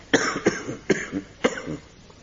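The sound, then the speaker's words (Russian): An ailing man whose chest aches in damp weather coughs in a rough series of short, harsh bursts, a few strong coughs with weaker hacks between them, fading into a quieter wheezy tail. “Кашляешь ты все.”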